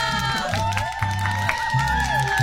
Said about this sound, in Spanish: Este aplauso.